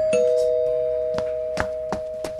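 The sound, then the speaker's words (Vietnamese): A house doorbell rings as one steady, sustained electronic tone held throughout, with four short, sharp taps sounding over it in the second half. “anh đứng ngoài cửa bấm chuông một hồi mới thấy con gái ra mở cửa.”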